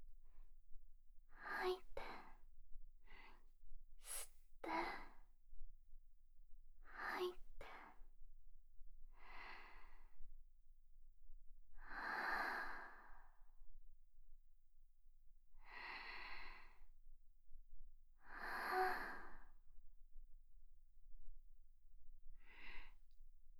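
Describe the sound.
Faint, labored breathing from a young man in distress: many rough, rasping breaths and gasps at uneven intervals, with quiet gaps between them.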